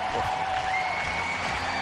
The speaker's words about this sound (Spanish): ovación para Roger Federer.